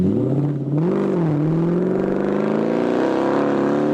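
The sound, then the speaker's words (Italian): A Jaguar car engine roars in a loud, steady, low drone whose pitch climbs gently over the few seconds, rich and throaty, with no voices over it. “Questa era una Jaguar, eh? Certo, non poteva essere una Fiat.”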